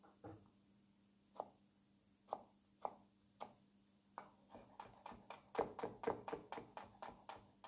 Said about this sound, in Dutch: En dan kun je dat vliesje zo eraf halen en wegdoen. Nou, dan snij ik deze ook fijn.